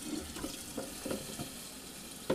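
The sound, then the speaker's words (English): Water runs from a tap into a pot, a faint, steady hiss with small splashy bursts throughout. “First we fill up the water. Yeah. I don't really think it takes very long for it to boil. Well. Look, this is taking a long time, and I'm just filling it up.”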